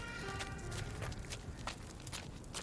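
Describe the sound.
Footsteps walk across a yard at a large construction site in a steady, even series of soft scuffing steps that runs through the whole clip.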